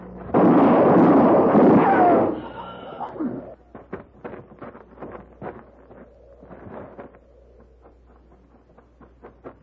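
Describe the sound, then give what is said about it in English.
Gunshot in a tense western scene with horses nearby: one loud, heavy blast with a rumbling tail lasting about two seconds, followed by quieter scattered sounds. “You shot him.”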